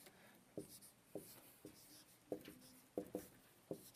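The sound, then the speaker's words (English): Writing up notes on a board during a class lecture: faint, short scratchy strokes with brief squeaks, seven separate marks spaced unevenly in a quiet room. “The three types of law I forgot to put in your sheet there, but I'll write these up here.”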